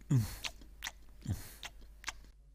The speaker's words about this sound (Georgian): გადატეხეს ნამცხვარი და გემრიელადაც მიირთვეს.